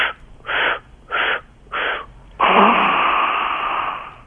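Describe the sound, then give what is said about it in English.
Kundalini yoga breathing done with the tongue stuck out and eyes wide: a few short, evenly spaced breath bursts followed by one long, loud, forceful exhale, breathy and rasping, with no talking. “Just inhale four parts with your eyes closed, stick your tongue out, open your eyes really wide. Open your eyes really wide, stick your tongue out as far as you can.”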